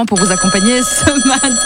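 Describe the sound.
A radio studio's open-line telephone rings with a steady, bright electronic trill held under a man's voice as he keeps talking over it.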